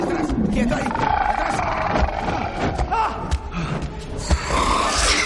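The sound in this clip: Tiger growls and roars in a dark cave in an animated prehistoric adventure film. The sound is a loud, continuous rasping rumble, broken by a few dull thuds.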